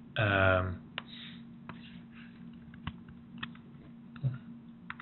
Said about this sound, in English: And actually, let me just sort of cut and paste these under.